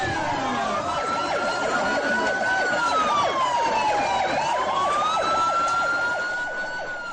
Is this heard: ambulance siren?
yes